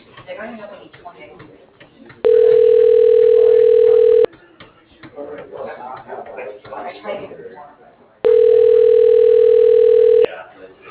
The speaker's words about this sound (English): Calling that extension. Please wait.